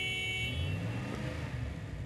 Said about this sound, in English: Is there a reason why you're driving your mud-splattered 4x4 onto my forecourt and are sitting here revving your engine in a mildly threatening manner?